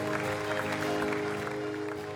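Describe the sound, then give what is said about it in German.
Applause at a church service, a grainy spread of clapping over a sustained keyboard-like chord that holds steady and fairly quiet throughout. “Lass uns mal einen Applaus geben.”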